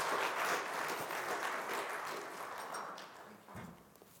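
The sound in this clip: A church audience at Hillsboro First Baptist applauds to welcome a guest speaker, with steady, fairly faint clapping that gradually thins out toward the end.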